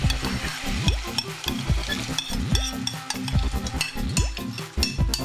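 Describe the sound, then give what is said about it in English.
Meat and onions sizzle as they sauté in a pot before beans and barley go in; a constant frying hiss runs throughout, with repeated scraping stir strokes and no talk. “After a few minutes of sauteing the meat and the onions, I'm ready to add my beans. And my barley.”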